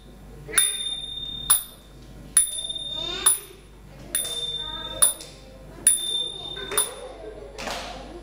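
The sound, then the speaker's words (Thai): Small Thai ching cymbals are struck in a steady series of bright, high metallic pings about once per second. Each strike rings briefly and decays before the next, and the last hit sounds duller. “เสียงตีฉิ่งนั่นเองค่ะ”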